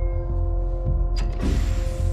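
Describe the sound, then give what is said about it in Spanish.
Mechanical creak and clatter of a horizontal chamber lid closing in a lab, over a steady electrical hum, followed by a sustained airy rush. “La tapa de la cámara horizontal se cierra”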